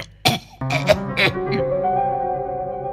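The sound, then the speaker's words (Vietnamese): A man's voice imitates the harsh coughing of a heavy smoker: a few rough coughs and throat clearing, then a drawn-out voiced rasp that fades. “ho quá, hút nhiều thế này khéo ung thư phổi rồi chết à.”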